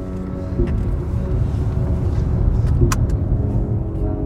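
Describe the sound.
A car drives along a road past rural fields toward a highway, giving a steady, loud, low rumble of engine and road noise that holds evenly for the whole stretch, with no talk.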